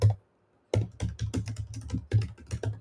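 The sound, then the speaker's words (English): Typing on a computer keyboard: after a short silence, many quick, clattering keystrokes follow in irregular bursts, with no voices. “And then the name of the podcast is, type it in. I'll type it again.”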